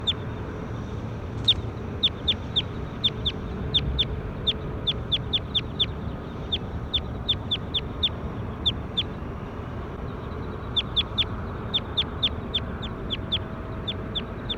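A bird repeats many short, sharp, high-pitched chirps in irregular bursts with brief pauses between clusters, over a steady low background rumble.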